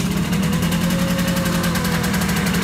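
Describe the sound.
A car engine runs with a steady, loud low rumble and a fine rapid pulsing throughout, with no clear change in speed.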